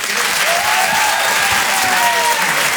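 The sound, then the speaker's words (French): Loud audience applause for a comedian at a stand-up comedy show, dense continuous clapping at a steady level throughout, with some faint cheering mixed into the crowd noise. “Vous pouvez l'applaudir très fort”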